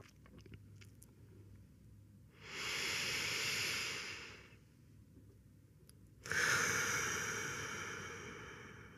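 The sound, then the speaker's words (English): Slow, deep breathing during a guided relaxation exercise: two long, airy, hissing breaths, quiet and steady, separated by a short pause. “Let's take 3 deep breaths together as we relax our body.”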